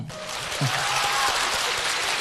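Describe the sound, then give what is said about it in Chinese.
Audience applause fills the room at a live comedic performance, a steady, even patter of many hands clapping at moderate loudness. A brief low voice sounds early on. “不用鼓掌，不用你们的虚情假意。”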